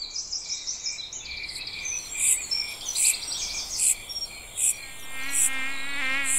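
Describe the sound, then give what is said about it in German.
Insects buzz and chirr outdoors in nature: a steady high-pitched hum under many evenly spaced, shrill chirping pulses. A fluttering buzz swells louder near the end, with no voices. “Das Krabbeln, Surren und Kriechen der Insekten.”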